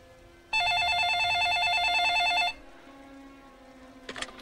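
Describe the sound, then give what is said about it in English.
Electronic telephone ringer sounding one continuous warbling burst of about two seconds, rapidly alternating between two pitches, followed by quiet and a brief clatter at the end. “No, I had to get out of bed to answer the phone anyway.”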